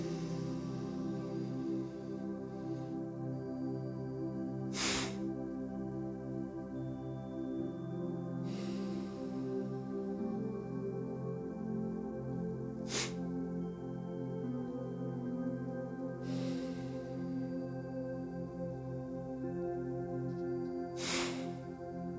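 Slow breathing in and out during a guided breathing exercise, with five soft, evenly spaced breaths over a steady tonal drone.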